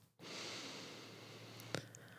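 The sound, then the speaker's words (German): A deep breath drawn in through the nose: a soft, steady airy rush that begins abruptly and lasts about two seconds, faint and alone, with a tiny click near its end. “Dann lade ich dich auch ein, einfach mal tief durch die Nase zu atmen.”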